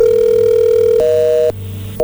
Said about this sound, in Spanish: a ver, márcale de nuevo, a ver si nos contesta, a ver, márcale.